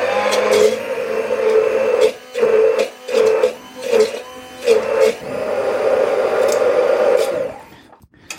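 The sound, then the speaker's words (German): An electric mixer whirs as it purees a ginger-garlic spice mixture: a steady motor whine breaks into a run of short pulses, then runs smoothly again before cutting off at the end. “So, ich mixe es jetzt einmal, dann ist es gleich schon mal fertig. Das Ganze muss schön fein püriert werden.”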